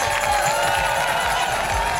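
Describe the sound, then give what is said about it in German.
Crowd cheering and applauding at a contest between towns, a steady, dense roar with regular low thumps pulsing through it. “ihr könnt wirklich einen großen Applaus euch selbst spenden und natürlich auch rüber zu euch nach Ötikheim”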